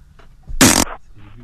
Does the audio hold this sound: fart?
yes

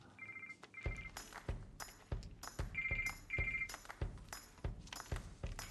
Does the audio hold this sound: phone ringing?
yes

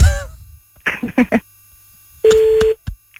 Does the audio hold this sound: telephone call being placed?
yes

